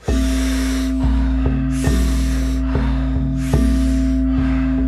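A few deep, forceful breaths in and out during a guided breathwork round, each rushing burst lasting about a second, repeating in a steady rhythm over a sustained droning music bed.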